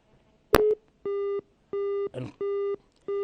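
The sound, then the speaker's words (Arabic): Telephone busy tone after a dropped call-in line from Libya: a sharp crackle, then four evenly spaced, steady buzzing beeps at one mid pitch, the last cut off, with a brief noisy burst between the second and third. “فقدنا الاتصال مع أخينا من ليبيا”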